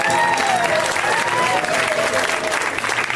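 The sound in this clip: Audience applause for a comedian at a stand-up show: loud, sustained clapping throughout while a man speaks over it.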